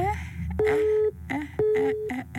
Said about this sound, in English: The number you have dialed is busy. Please try again later.